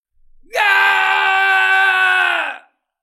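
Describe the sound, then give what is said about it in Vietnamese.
A gravely wounded warrior's scream: a single loud, sustained, harmonically rich cry of about two seconds that follows a short quieter lead-in, holds a steady pitch and then cuts off abruptly. “Vị chí tôn kia gào thét.”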